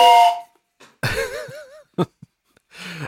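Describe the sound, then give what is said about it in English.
A train whistle gives a steady, multi-tone blast, then a warbling, wavering whistle tone, followed by a few short scattered sounds and a brief breathy burst. “always a good day when the train whistle pops up.”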